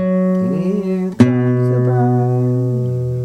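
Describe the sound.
A sustained musical tone sounds the interval of a fourth in an ear-training exercise. The steady, harmonically rich pitch wavers briefly at the start, has one sharp click near the middle, then holds evenly for about three seconds.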